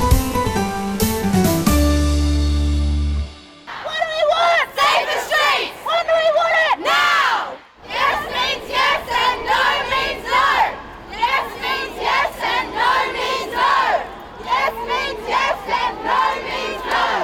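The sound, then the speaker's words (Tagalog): Marchers of all ages shout and chant in a city street protest demanding safety for women, a loud, dense crowd roar in rhythmic surges that follows a short musical passage at the start. “Ang mga ingay ay narinig sa mga lansangan ng malalaking kapitolyo ng Australia nitong nagdaang linggo habang ang mga babae, lalaki at kabataan ng lahat ng edad ay nagmarsya kasabay ng demanda ng kaligtasan”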